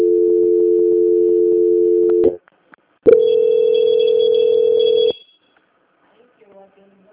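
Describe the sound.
Telephone tones during a call transfer on a bank call: a long, steady, low continuous tone, then a short gap with faint clicks, then another steady tone lasting about two seconds, followed by near silence.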